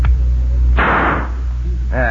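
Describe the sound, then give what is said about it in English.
A single gunshot fired at a poker chip tossed into the air: one loud, sharp burst that rings out and decays over about half a second, with a voice starting just after it. “What do you aim to do with the gun? Toss a chip into the air, you'll see. Well, here goes.”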